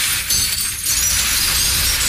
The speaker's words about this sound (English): This bucket here is broken glass. Right. You want to, if you want to tilt it towards the camera, let's see. Yeah, that is, ooh. Those are broken bottles. We're going to pour this out onto the ground here.